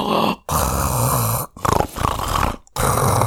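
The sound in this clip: A voice imitating the death rattle of a dying person: loud, harsh, gurgling breaths drawn in several long, strained pulls, each broken off by a short silence.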